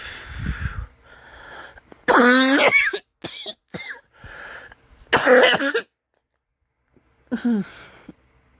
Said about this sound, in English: Ugh, I'm sorry for the coughing as much